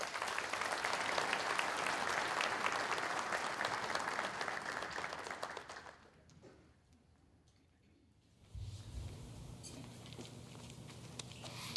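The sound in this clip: A church audience applauds to welcome a speaker at a service: dense, even clapping for about six seconds fades away into near quiet, and a low steady rumble follows.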